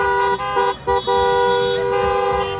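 Car horns honk in a National Nurses Day car parade winding through Chula Vista, Bankers Hill and downtown San Diego. The loud, overlapping horn blasts are held long, with a few brief breaks, and engines rumble underneath.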